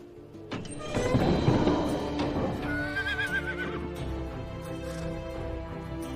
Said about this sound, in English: A horse turns to him from behind a gate.